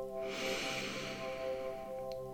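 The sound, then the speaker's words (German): Long, deep inhale through the nose during a guided breathing meditation: a soft, airy rush lasting about two seconds over quiet, sustained background music. “Und dann atme nochmal tief durch deine Nase ein.”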